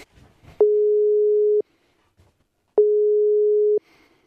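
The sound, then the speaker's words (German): Ringback tone of an outgoing phone call placed to a fan, heard as two steady, even electronic beeps, each about a second long, separated by a slightly longer silence. The beeps are loud and play alone, without voices. “Und jetzt probieren wir mal die Christine anrufen.”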